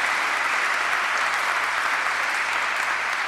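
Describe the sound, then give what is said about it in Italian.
A church audience claps warmly as a gesture of affection for newly welcomed priests, producing a thick, even roll of applause that holds steady from start to finish. “E facciamo un gesto di affetto, sì, un gesto di affetto, facciamo anche un applauso, sì.”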